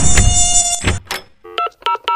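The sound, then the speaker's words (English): Mosquitoes buzz in a yard with a loud, high, whining drone through the first second. The drone fades, and a short series of clipped electronic tone beeps follows. “Can you come spray my yard for mosquitoes? If you can't be outside because of the mosquitoes, call Wolf and Sons”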